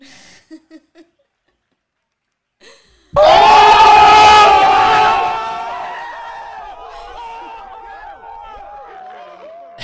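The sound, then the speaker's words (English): Excited crowd cheering erupts loudly after near silence and a few faint clicks, a dense roar with shrill whistle-like cries that holds strong for a couple of seconds, then gradually eases off while staying lively to the end. “The crowd got really excited on that one. They blew our ears out. We were like, whoa. Whoa, crowd. Can we get that a little lower?”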